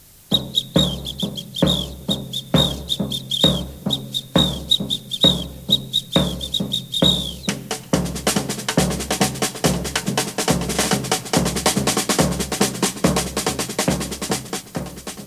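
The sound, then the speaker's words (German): Samba percussion: a tom-tom beats a steady low pulse beneath a trilling, high whistle for about seven seconds. The whistle then stops, and a snare drum joins the tom-tom with dense, crisp rattling strokes. “Erst spielte das Tom-Tom zusammen mit der Trillerpfeife. Dann wurde die Pfeife von der kleinen Trommel abgelöst.”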